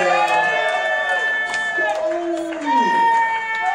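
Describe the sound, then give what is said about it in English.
Crowd cheering and whooping for a comedian at a comedy show in Atlantic City, loud voices rising and falling in pitched shouts that overlap and carry on steadily for a few seconds. “Ladies and gentlemen, he's already here. How about a hand for Stuttering John, everybody?”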